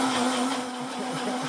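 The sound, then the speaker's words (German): A blender runs, mixing a blend seasoned with salt and cayenne pepper: a short, steady, loud motor whir over a constant low hum, with no voices. “Geht mit jedem Mixer.”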